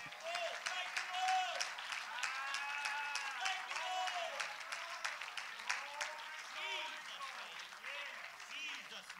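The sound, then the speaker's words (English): Church audience clapping their hands together in steady, dense applause, with raised voices calling out and singing over the clapping throughout. “Let's give a hand clap.”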